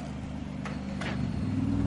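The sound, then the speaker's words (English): Faint engine hum of an Aston Martin race car driving into the pits, steady and low, growing slightly louder toward the end. “The Aston Martin Mattia Drudi makes it to the pits.”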